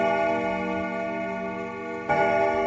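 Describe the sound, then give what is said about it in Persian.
Even ticking of a wall clock, the one working clock among about twenty hung on a wall, running steadily on its own with no voices. “گفتم بهت که 20 تا ساعت و یه جا زده به یه دیوار. تازه از بین همه این ساعت و فقط یکیش کار میکنه که اینم صدای همونه.”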